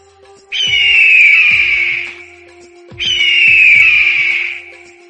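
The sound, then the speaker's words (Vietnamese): A fat bird utters shrill cries: two drawn-out, piercing high calls, each about two seconds long and steady in pitch, separated by a short gap. “có tiếng kêu lanh lảnh truyền đến từ phương xa. Phàm là người cửu nguyên đều cùng nhau ngẩng đầu. Con chim béo đó rốt cuộc cũng biết về rồi, Ngưu Chiến nói thầm.”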